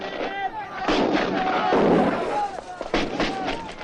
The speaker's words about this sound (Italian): mentre ancora tuonavano i cannoni a Custoza